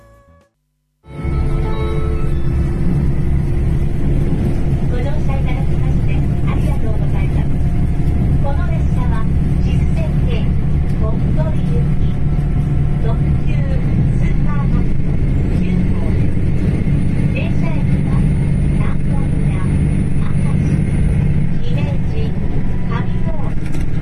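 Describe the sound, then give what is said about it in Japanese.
Interior of a diesel limited express train running on the Sanyo Main Line, a loud, continuous engine and running rumble that holds steady without a break. “スーパーハクト9号っていう特急なんですけど、大阪を出て、まあ、まあ、本当にいきなり山陽本線ぶっ飛ばすんですけど、そこの中で、まあ、車内アナウンス等々が入ってますんで、これはちょっと一回聞いていただきたいと思います”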